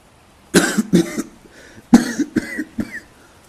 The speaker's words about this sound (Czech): Muž zakašlal a odplivnul si.